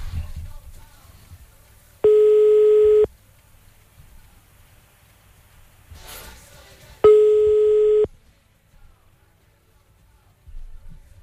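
Telephone ringback tone on a call while dialing: two steady, mid-pitched electronic tones, each lasting about a second, separated by a few seconds of low background hum.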